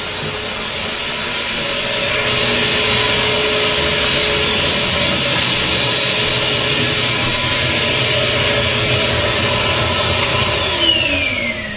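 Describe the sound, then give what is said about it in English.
An MD Manufacturing Flowmaster M85 vacuum unit runs with a steady roaring whoosh and a faint whine, swelling over the first couple of seconds and then holding a constant, loud drone. “there's that one. That again is the MD Manufacturing Flowmaster M85. What's the name of that one? All right, we'll go shut that off and we'll go to the next one.”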